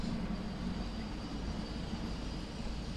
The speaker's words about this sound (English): That's a train. That's the tourist tram.